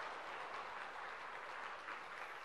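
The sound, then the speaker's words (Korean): Faint, steady applause from a church audience during a worship service, an even, continuous patter of many hands with no single claps standing out. “감사합니다. 한 번 더 박수하겠습니다.”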